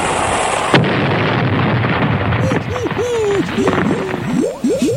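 An explosion sound effect of a naval shot being fired: a sudden loud burst, then sustained rumbling noise with several short warbling tones near the end.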